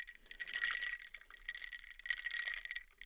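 Ice clinks and rattles inside a glass, a bright, continuous clattering that swells in two louder stretches over a few seconds, with no talking.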